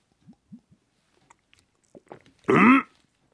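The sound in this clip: Someone sips a mandarin orange drink: a few faint mouth clicks and small wet sounds, then one short, loud slurping draw.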